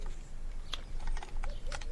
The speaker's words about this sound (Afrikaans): Nou druk jy die groen knoppie en jy sê, Dassie, maaikie vir praaikie, op die 9.